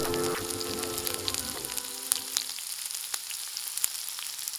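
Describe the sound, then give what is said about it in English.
Bacon frying in a pan, a steady bright sizzle with scattered sharp crackles and pops, heard alone; a low hum under the start fades out partway through. “Can you smell this bacon?”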